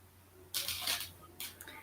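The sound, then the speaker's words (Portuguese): Faint mouse clicks on a draw-number button in an app, two short dry clicks about a second apart over a quiet background hum. “Aí eu vou clicar aqui no sortear número.”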